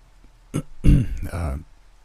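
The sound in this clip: A man clears his throat awkwardly. A short rough rasp leads into a heavier guttural clearing, then a softer grumble. The sound is fairly loud and stands alone against a quiet background.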